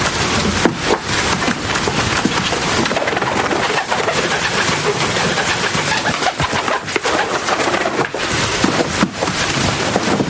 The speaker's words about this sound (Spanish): Intenta capturar a la paloma con la bata, pero esta se escapa volando.